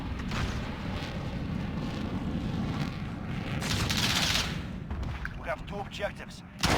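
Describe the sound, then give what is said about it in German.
Gunfire and missile explosions from a video game form a dense, continuous rumbling roar that swells in the middle and breaks into several sharper bursts near the end. “Hat der gerade den Vitol gebasht mit der Missile?”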